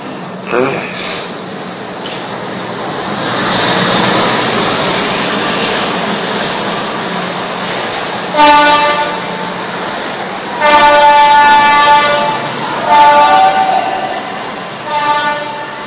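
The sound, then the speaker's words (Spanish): A train passing with a steady rumble of rail cars, and several horn blasts in the second half, the longest lasting over a second. “Voy a dejar pasar el tren.”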